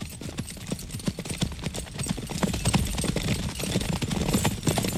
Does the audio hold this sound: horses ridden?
yes